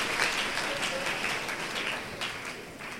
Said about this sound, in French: Il faut acclamer pour l'évangéliste.